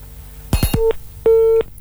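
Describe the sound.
Telephone busy signal after a call is cut off: a few quick clicks, then two steady beeps, the second noticeably longer than the first.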